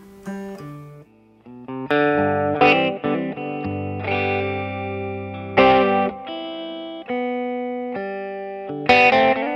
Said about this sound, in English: The amp's got a little bit of juice in it already. Yeah. But that verb is sick, right?